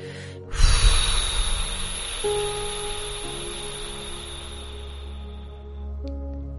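A long, breathy exhale after holding the breath in a guided meditation breathing exercise: a soft airy rush swells quickly, then fades gradually over a couple of seconds while gentle sustained background music continues.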